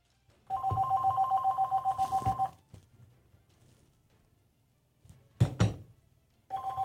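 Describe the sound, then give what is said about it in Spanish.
A telephone rings with an incoming call: a pulsed, warbling ring lasts about two seconds, then quiet and a couple of short knocks, and the ring starts again at the end. “Dame esa llamada, vámonos con esa.”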